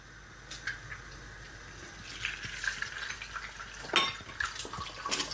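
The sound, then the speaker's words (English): Two eggs fry in a quickly heated pan, giving a crisp crackling sizzle with irregular pops and spikes scattered over a soft hiss, with no talking. “Second egg goes in. Oh yeah. And you can hear that really nice kind of crispy crackling sound.”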